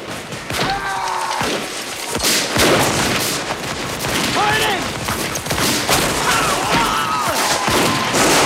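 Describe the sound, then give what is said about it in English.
Confederate soldiers fire guns as they advance in a Civil War battle. Many loud shots and booms overlap in a dense, steady barrage, with voices mixed in. “Confederates move forward, firing as they go.”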